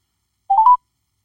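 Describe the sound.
Touch-tone dialing beeps as a phone calls a caller back: a brief burst of a few clear, high tones in quick succession, alone against silence.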